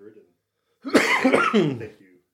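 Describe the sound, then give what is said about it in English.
A short fit of coughing: one loud, rough burst with a raspy, voiced tail that lasts just over a second, then silence. “Sorry, I had to cough.”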